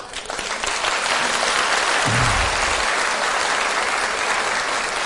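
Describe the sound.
Audience clapping in a sparsely attended hall after a lecture on health: dense, even applause that swells in at the start and holds steady, with a brief low thump partway through.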